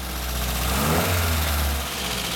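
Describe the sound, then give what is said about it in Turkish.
Engine running on a test after a spark plug was replaced, a steady mid-pitched rumble with a deep low hum that swells slightly in the middle, running alone without voices. “Torpido gözünü karıştırıyor ve yedek bir buji takıyor. Tam zamanında ben ikinci motor testine dönüyorum. Tamam, hadi deneyelim.”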